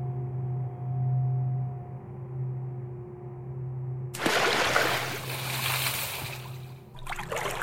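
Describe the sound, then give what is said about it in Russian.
Loud water splashing in a washtub bursts in suddenly after a steady low hum, then sloshes on noisily for a few seconds with another surge near the end. “Раздался громкий плеск, звук удара о пол, всхлип, судорожный вздох. Я мотнул головой, разбрызгивая капли, закашлялся и понял, что плеснулась вода в корыте”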